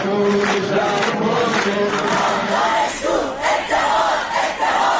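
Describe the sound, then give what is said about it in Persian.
Students at Tarbiat Modares University in Tehran chant together at a protest demonstration, a loud crowd of voices in rhythmic unison with rising and falling pitch. “در تهران صبح دوشنبه دانشجویان دانشگاه تربیت مدرس دست به تظاهرات زدند. زهرای کشتی آزاد باید گردد.”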